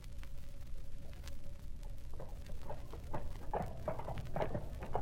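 Horse hooves clip-clop during a ride to market in Flushing. The hoofbeats fall in a steady, even rhythm, growing clearer and louder over the second half, with no voices.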